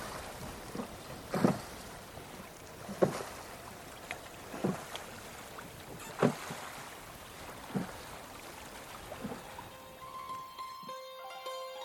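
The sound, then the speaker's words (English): Oars rowing a boat through water, a regular series of about six splashing strokes roughly every one and a half seconds over a soft steady wash, with sustained tones entering at the very end. “And the only sound that can be heard here is me rowing.”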